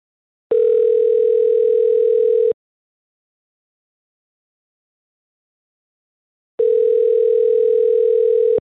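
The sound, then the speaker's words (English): Ringback tone of an outgoing telephone call, two long, steady, mid-pitched buzzing tones about two seconds each, separated by a stretch of silence, with no voices. “let's call Cassie and see if we can get a hold of her”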